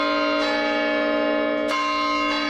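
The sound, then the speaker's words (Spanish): Church bells in the Reloj Monumental, a stone clock tower in Pachuca, Hidalgo, sound three strikes, each a bright metallic clang whose rich, sustained ringing carries between strikes. “Bueno, así suena el campanario de Pachuca.”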